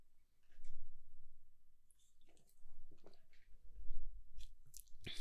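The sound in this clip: Someone takes a sip of a drink, with faint wet slurps, swallows and small mouth clicks in a few quiet bursts over several seconds.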